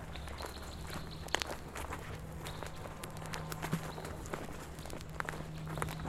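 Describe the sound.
Footsteps walk along a garden path: a handful of irregular, faint footfalls with no talk, over a steady low hum.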